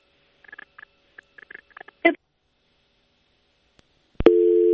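A phone call drops and the line gives a busy tone. A few faint, soft chirps and one sharp click come first, then a loud, steady electronic tone starts near the end.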